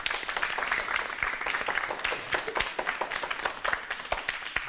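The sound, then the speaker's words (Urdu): Loud applause for the teams on a quiz show: dense, continuous clapping from an audience that holds steady from start to finish. “زوردار تالیاں۔”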